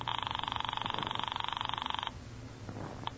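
A telephone rings upstairs: a rapid, buzzing trill lasting about two seconds, then it stops, leaving faint scattered small sounds.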